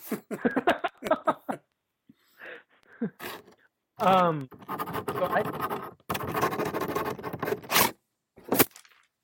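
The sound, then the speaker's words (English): A pen scratches loudly across paper in several long, rough bursts of scraping after a short stretch of talk at the start. “What was that? Oh, I was writing something. I didn't know you heard that. Yeah, that was very loud.”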